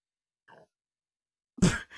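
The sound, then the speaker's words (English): An odd throat noise just after someone takes a drink: a faint brief murmur, then after a pause a louder, rough, sigh-like vocal burst that quickly trails off. “Was that your throat or your stomach? Yeah, it was my throat. I have no idea what just happened. I took a drink and I was just sitting here and then my throat said,”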